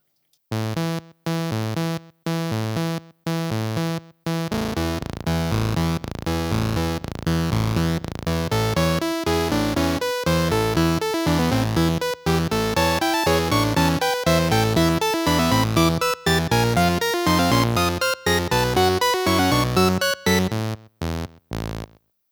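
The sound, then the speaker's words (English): Notes from a mini log synthesizer are played back by Logic software: short separated synth notes with pauses at first, then a continuous rhythmic sequence of pitched pulses and chords. No voices. “here is the sound of Logic playing the mini log for me.”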